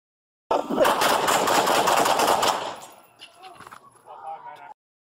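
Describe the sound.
Gunshots as a suspect fires at a deputy in bodycam footage: a dense, harsh volley of rapid blasts lasting about two seconds, followed by quieter clatter and shouting voices.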